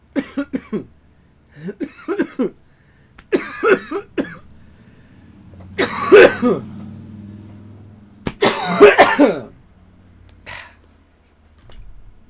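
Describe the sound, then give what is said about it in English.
Harsh, hacking coughs from a person with Lyme disease come in several separate fits, each a cluster of loud bursts with quiet gaps between. “Sorry about those coughs.”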